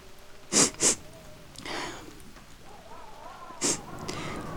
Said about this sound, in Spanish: Disculpa que llore. Es que tengo tal opresión al corazón que esto me hace bien.